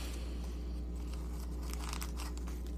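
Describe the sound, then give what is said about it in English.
Faint crinkling and rustling as someone rummages through a wallet for a business card, with scattered soft crackles over a steady low hum. “So let me pull out my uh, my my business card here because and they're going to tell me I don't have any more business cards in my wallet.”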